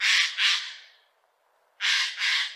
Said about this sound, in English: That's the sound of a Eurasian jaybird.